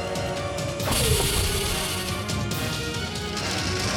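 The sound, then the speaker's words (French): A video-game waste compactor's walls close in with a heavy mechanical clunk and a falling tone, followed by continuous loud grinding and rumbling noise. “Niveau de matière organique anormalement élevé. compression des déchets enclenchés.”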